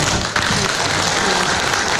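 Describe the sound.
An audience at an engineering award ceremony applauds as a top achievement-award winner is invited on stage, a dense, steady clapping that runs without a break throughout.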